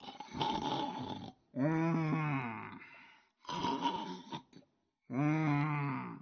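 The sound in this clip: A storyteller's voice imitates Zhu Bajie, the pig character, snoring in his sleep: two cycles of a rough, snorting inhale followed by a long, drawn-out groaning exhale, separated by brief pauses.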